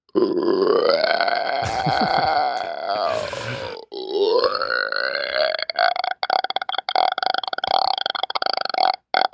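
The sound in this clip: Burping comes as a long, deep, rumbling belch that wavers in pitch for several seconds, followed by a second rattling, stuttering belch made of rapid crackly pulses.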